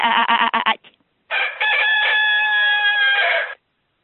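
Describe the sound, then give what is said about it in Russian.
Rooster crowing in a henhouse: a quick run of short, clucking notes, a brief pause, then one long, loud, drawn-out crow that holds steady before cutting off. “О, видишь, у тебя там курятник целый. Да, да, да, да. Что-то петух-то рано поет, он обычно 12 поет.”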